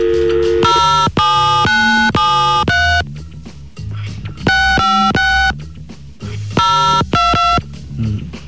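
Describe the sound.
A telephone is dialled, producing many short electronic keypad beeps of varying pitch in quick, uneven succession.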